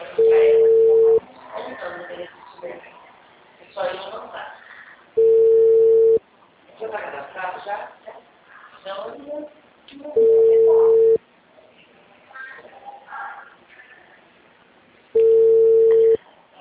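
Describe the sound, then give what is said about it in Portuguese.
A telephone ringback tone while calling a customer: four steady one-second tones about five seconds apart, with a person talking in the gaps between them. “Agora tô chamando o cliente. Vamos ver se ele vai me atender.”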